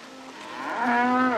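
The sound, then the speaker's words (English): A long-horned cow in a dirt pen gives one drawn-out moo. The tone swells steadily, and its pitch lifts partway through before holding steady, heard alone with no voices. “Later, in a dirt pen, a long-horned cow chomps on grass.”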